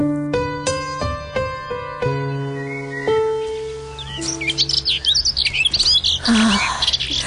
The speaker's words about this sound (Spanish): Escuchar los pajaritos.